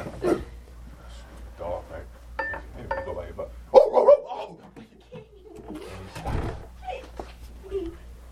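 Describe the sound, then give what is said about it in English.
A person's voice imitating a dog barking during a lively spoken story: a few short, rough bark-like vocal bursts mixed with other vocal sounds, the loudest burst near the middle. “His dog barks.”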